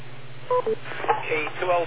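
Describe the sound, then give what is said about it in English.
Two short electronic beep tones from a radio net check-in system, sounding back to back over a steady low hum, followed by a person talking. “You'll notice that there's a extra length of time before the beep.”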